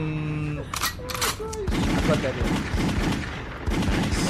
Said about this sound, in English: Shots fired, and that was from a full clip.